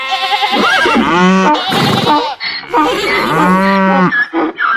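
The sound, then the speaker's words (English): Farm animals calling together in a chorus, dominated by loud, drawn-out lowing moos that overlap with other animal cries, nearly continuous throughout. “And when the farm choir comes together, this is what it can sound like.”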